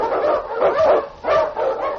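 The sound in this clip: A husky sled dog, a lead dog on a snowy trail, barks and yelps in a few sharp, mid-pitched bursts with short gaps between them. No other sound is heard.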